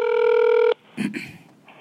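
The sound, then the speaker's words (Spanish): A telephone keypad tone sounds as 3 is pressed in an automated phone menu: one steady, loud beep lasting under a second, then a brief voice. “Vamos a marcar 3.”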